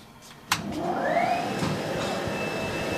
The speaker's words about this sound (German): Es gehen so Saugebläse an, die Eier gleich umpacken und auf unterschiedliche Bahnen setzen.